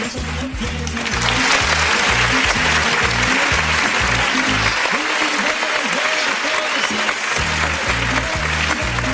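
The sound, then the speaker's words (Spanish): Loud, sustained applause from an audience in a hall, a dense, even wash of clapping that carries throughout over a steady, thumping low rhythmic beat. “me despido con un fuerte aplauso para todos vosotros, los que estáis en sala.”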